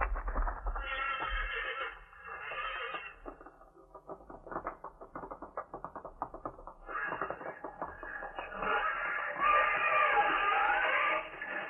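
A horse named Thunderhead neighs while fighting a horned animal, with loud, repeated whinnies and snorts that run almost without pause through the whole stretch, some rising and falling in shrill bursts.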